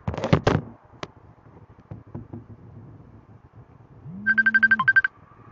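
An incoming-call phone ringtone plays near the end: a bright electronic tone pulsing in a quick run of short beeps, stopping abruptly. A few soft knocks and thuds come before it.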